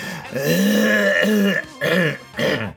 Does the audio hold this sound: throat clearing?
yes